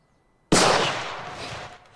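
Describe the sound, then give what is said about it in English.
A single gunshot in a film scene as a character fires at another man's hand, a sudden loud crack that sets in abruptly and then fades slowly in a long, noisy tail. “Luke shoots his hand. The sound makes Theo jump.”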